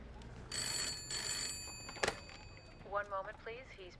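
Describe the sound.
An office telephone rings in two short, bright bell bursts for a call from Secretary Kissinger, followed by a click and a voice speaking.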